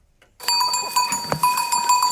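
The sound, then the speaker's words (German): A goat herd trots up a wooded Provence hillside, bells ringing steadily over scattered clattering and rustling that begins abruptly after a moment of silence. “Was hier in der malerischen Waldlandschaft bei Perrol in der Provence den Hang hochtrabt, ist keine normale Ziegenherde.”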